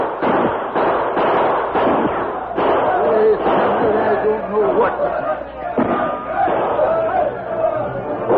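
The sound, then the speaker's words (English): Gunshots in a Lone Ranger radio drama, several sharp bangs scattered through a busy commotion of shouting voices. “Hey, he's shooting at the outlaw.”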